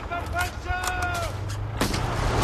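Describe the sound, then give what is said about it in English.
A single loud gunshot blast in a war film battle scene, a paratrooper firing from a ditch as a Tiger tank passes, a sharp boom that follows a man's voice speaking. “Horvath shoots and ducks.”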